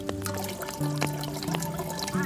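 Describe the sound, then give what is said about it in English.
Water pours into a billy can, a continuous splashing trickle with steady ringing tones mixed in, fairly quiet. “So first, let's get this billy can filled up and put it on the walu so the water can boil.”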